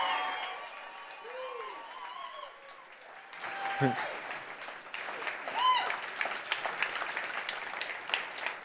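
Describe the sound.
Applause from a church audience welcoming guests to the front: steady, dense clapping that carries throughout, growing a little fuller after the first few seconds, with some voices mixed in.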